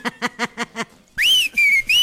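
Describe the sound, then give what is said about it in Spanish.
A person gives a flirty wolf whistle: a bright whistle that sweeps up and holds, then a second held whistle that rises again at the end. It follows five short, quick, evenly spaced pulses and has no talk over it. “¡Ah, no se crea! Era un chiflido sexy. Chiflido coqueto. Un chiflido.”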